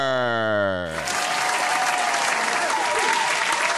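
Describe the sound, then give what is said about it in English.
Audience applause greets a guest walking out at a live show, a dense, loud wash of clapping that begins about a second in and holds steady to the end. “Please make some noise for Luke.”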